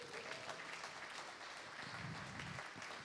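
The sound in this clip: Faint audience applause greeting a guest speaker at an evening gathering, an even patter of clapping that continues at a low, steady level for a few seconds.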